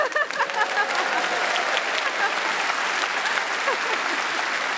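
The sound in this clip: Applause from a group of people, dense and steady clapping that holds at an even level from start to finish.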